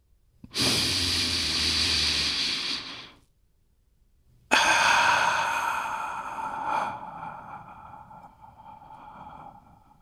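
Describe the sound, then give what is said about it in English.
A deep breath comes as two long, airy rushes split by a short pause, the second one fading slowly. “So, now, if you're ready, let's take a deep breath.”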